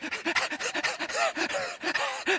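A person imitates a dog panting with many quick, rhythmic breathy huffs in a steady run, fairly loud and with no other talk.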